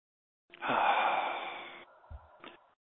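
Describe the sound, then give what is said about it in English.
A person breathes in and out during a guided relaxation exercise: one long, loud, airy breath lasting over a second, then a quieter, softer breath that tapers away. “And breathe.”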